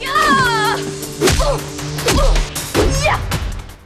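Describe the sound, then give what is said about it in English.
Kicks and punches in a fight as two black-clad ninja fighters repeatedly strike a woman: a rapid, loud run of sharp thwacks and swishing whooshes, with bursts of vocal sound between the blows. “They kick and punch her repeatedly.”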